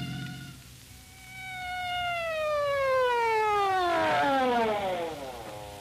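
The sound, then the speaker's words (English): A loud siren wails with a steady tone at first, then its pitch glides clearly downward as it fades into a lower wavering whine. “So why the siren?”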